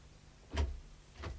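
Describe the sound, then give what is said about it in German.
A door opening in a classic radio drama, heard as two brief, muffled thuds about half a second apart, the first louder than the second. “Ja, ja, die Tür. Herein.”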